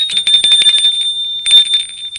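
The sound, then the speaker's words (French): A doorbell rings at a front door with a high, buzzy electronic trill, sounding in two bursts separated by a brief pause, loud and alone. “Didier sonne à la porte de Viviane.”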